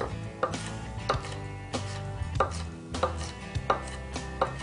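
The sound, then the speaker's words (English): Knife chopping through gathered strips of half a jalapeno, with several crisp, fairly evenly spaced strikes roughly every half second, quiet and with no other sound around them. “You wanna cut it into strips first, gather them all together, and we're gonna run our knife right through.”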